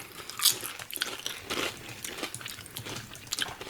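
Crisp crunching and chewing of a smoky, chip-like snack as people taste it, with many irregular bites and cracks, fairly loud and without talk.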